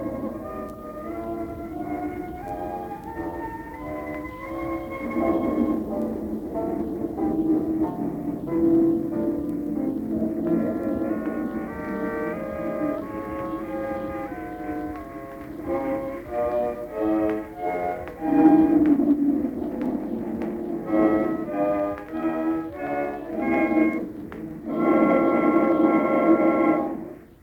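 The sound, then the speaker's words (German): A 1924 original recording of a chorale played on futurist noise instruments, including an arco enarmonico, with crackler, gurgler and buzzer sounding together. Wavering, sliding harmonic tones drone and shift pitch at a steady, moderate loudness. “Chorale, Originalaufnahme.”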